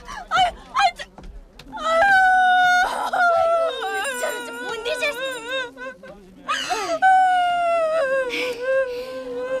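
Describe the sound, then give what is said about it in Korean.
A woman crying hard, with long wailing, moaning cries that waver and break, broken by gasping sobs and whimpers. “우는 사람한테 하기 미안한 말이지만도 울지 마이소.”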